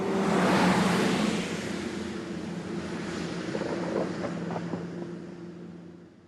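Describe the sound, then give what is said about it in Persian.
A Volkswagen pickup truck drives along a road at night, giving a loud, broad engine roar over a steady low hum. The roar is strongest at the start and then settles into a softer, even drone. “شب جاده. ماشین عباس که یک وانت فولکس واگن است از جاده رد می شود.”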